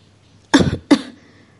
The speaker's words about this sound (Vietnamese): Phong Giao Tình ho khan vài tiếng